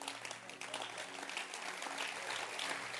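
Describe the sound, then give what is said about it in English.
A church audience, on its feet, claps hands in appreciation in a faint, continuous patter of many hands, with a low steady hum underneath. “Clap your hands and let's appreciate him.”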